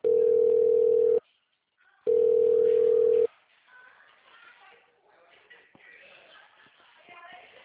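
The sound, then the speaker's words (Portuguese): Telephone ringing tone while a call is transferred: two loud, steady tones of about a second each with a short gap between them, then quieter background noise with faint talk. “Por favor, aguarde. Iremos transferir sua ligação para um de nossos atendentes. Aguarde, estamos transferindo sua ligação.”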